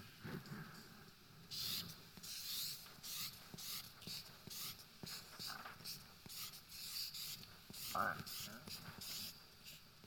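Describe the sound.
Handwriting scratches across a surface as narrow letters are written, many short rubbing strokes in an uneven rhythm, faint throughout.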